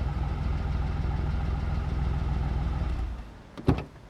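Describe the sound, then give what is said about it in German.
A moving van's engine idles with a steady, low, throbbing rumble for about three seconds, then drops away, followed by a brief sharp burst of sound. “Ah, guck mal, da kommt ja der Umzugswagen.”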